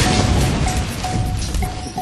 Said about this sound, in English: The whole building shook as the hack room violently exploded.